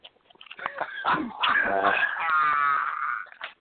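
A dog whines and moans in a drawn-out, wavering high cry, fairly loud, with a few shorter whimpers before it.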